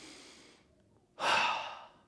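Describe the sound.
A person breathes audibly: a soft airy breath fades away, a short near-silent pause follows, then a louder, rushing breath swells and tapers off.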